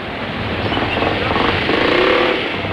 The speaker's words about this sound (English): steers the car away past a group of airmen in jumpsuits.